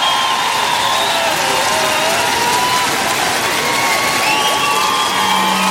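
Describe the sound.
A concert crowd in Lille applauds and cheers for the band Superbus. Loud, unbroken clapping mixes with shouts, whoops and whistles, sustained throughout.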